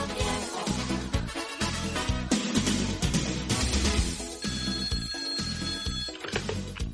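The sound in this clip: A telephone rings with a steady electronic tone in the second half, sounding over dense, loud music.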